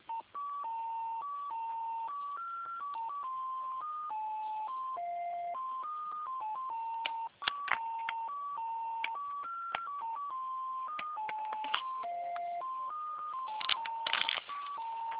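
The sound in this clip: Electronic telephone tones play on the line while a call is being transferred to a secretary. A continuous run of beeps steps up and down in pitch in a melody-like pattern throughout, with a few brief clicks near the end.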